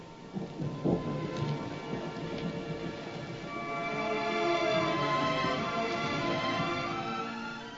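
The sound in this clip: Steady rain falls with a deep rumble of thunder, loudest in one early burst; the wash of rain grows fuller and louder in the second half, with no voices.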